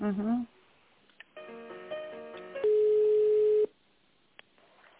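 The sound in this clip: A telephone line during a call transfer to a chief accountant: a brief voice, then a short electronic tone pattern, then a single steady ringing tone of about a second, leaving a quiet line after it.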